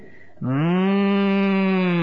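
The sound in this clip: A human voice imitates a cow lowing with one sustained, steady moo. It starts abruptly and holds loud and even for well over a second.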